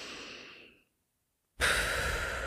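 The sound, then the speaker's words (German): Puffing breath pushed out through loosely closed lips after a nasal inhale: a soft, airy rush that fades away, then a short silence, then a louder, sustained breathy hiss. No speech. “Du machst so ein kleines Puffgeräusch, so ein beim Ausatmen.”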